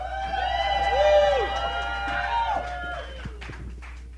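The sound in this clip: Whooping cheers from an audience welcoming a guest star singer: several voices in long rising-and-falling "woo" calls over a steady low hum, lasting a few seconds.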